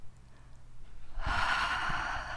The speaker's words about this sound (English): Now inhale. Double inhale up.